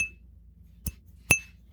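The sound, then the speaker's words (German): Glasses clink twice in a beer toast, each a bright ringing chink, with the second louder than the first, against a quiet background. “Das klingt, ne? Ja, also ich stoß mal mit euch allen. Ja, Prost.”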